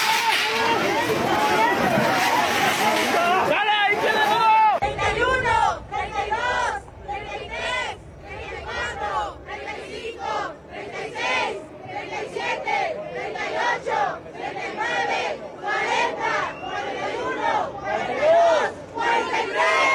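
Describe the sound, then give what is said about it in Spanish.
Many demonstrators chant rhythmic slogans at a protest against violence and disappearances. The massed voices rise and fall in repeated pulses, a loud, steady cadence of shouted phrases lasting throughout. “Los manifestantes expresaron su inconformidad por la situación de violencia y desapariciones en el país mediante diversas consignas. Vamos a escuchar.”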